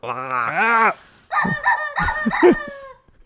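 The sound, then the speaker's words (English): A rooster crows: a long, harmonic call comes first, then after a short pause a second, brighter and more ragged crowing phrase follows, loud and clear with no talk over it. “That's the chicken.”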